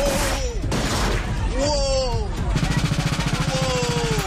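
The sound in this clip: Gunfire erupts at an annual Latin cultural street festival in midtown Toronto, with a fast, regular run of sharp pops in the second half, amid raised, shouting voices and general commotion.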